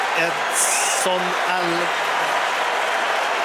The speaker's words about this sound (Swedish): Edson Alvarez. Det är honom publiken jublar åt.